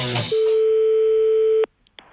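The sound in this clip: A steady, unbroken telephone line tone plays while a call is transferred in a comedy phone sketch. It holds one mid pitch for just over a second after a brief voice at the start, then cuts off abruptly.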